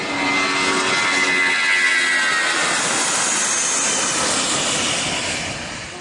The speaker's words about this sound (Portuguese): Tem uns aviões, quando você decola, parece que tem um catavento de metal em cima. Fica fazendo um... Dura só na decolagem, depois para.